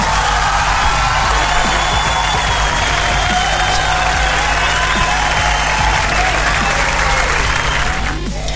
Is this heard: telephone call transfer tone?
no

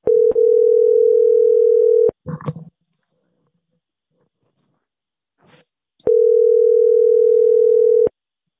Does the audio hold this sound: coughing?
no

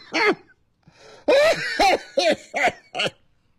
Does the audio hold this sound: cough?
yes

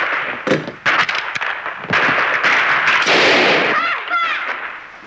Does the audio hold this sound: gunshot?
yes

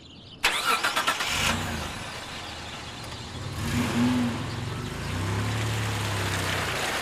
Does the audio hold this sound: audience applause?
no

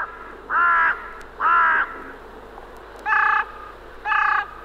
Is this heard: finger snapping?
no

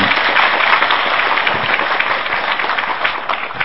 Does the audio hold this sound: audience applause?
yes

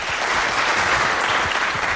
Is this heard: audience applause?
yes

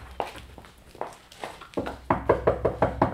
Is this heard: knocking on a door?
yes

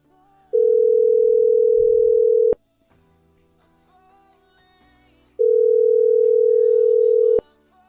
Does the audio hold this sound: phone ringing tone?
yes

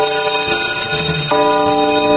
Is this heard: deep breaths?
no

